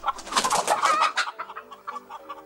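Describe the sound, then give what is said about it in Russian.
Chickens cluck in a string of short, sharp calls as hens wander back and are shooed away, loud and busy at first, then thinning to quieter, sparser clucks. “Еще одна курица возвращается. Алексей встает. Выгоняет курей.”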